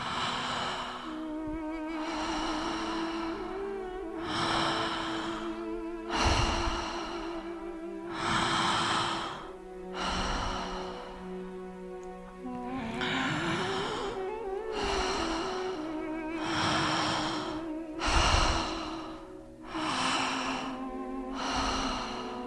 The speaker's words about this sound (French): Le souffle s'accélère.